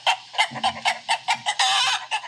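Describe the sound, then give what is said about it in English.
Chicken clucking played from a phone's voice assistant: a rapid series of sharp, nasal clucks, then a longer cackling squawk and one final cluck, with no talking. “What does a chicken sound like? A chicken sounds like this.”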